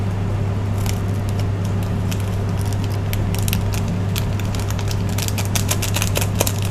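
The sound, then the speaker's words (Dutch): Scissors snip open a chicken-flavour instant noodle seasoning packet: many quick, sharp cuts and crisp plastic crackles over a steady low hum. “Dit is dus kipsmaak. Ik wil eigenlijk knippen. Knip, knip.”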